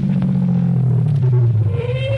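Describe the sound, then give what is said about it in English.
A car comes up from behind, a steady low engine rumble with a tonal drone throughout and a higher tone climbing in toward the end. “I was almost there when a car came up behind me and...”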